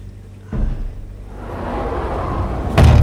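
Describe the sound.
A door slams shut with a sharp, loud thud over a continuous rushing background, and a second, deeper and heavier impact follows near the end.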